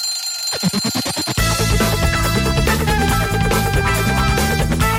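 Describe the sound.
An alarm clock bell rings in a rapid, loud burst of metallic strikes lasting under a second, then music takes over and plays on.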